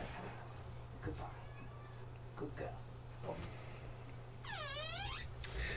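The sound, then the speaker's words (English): A house cat in a room with people gives one drawn-out, quiet meow near the end, after several seconds of faint low hum and soft scattered noises. “if you just hear that there, that's our cat realising we're both in the room and wanting in on the action”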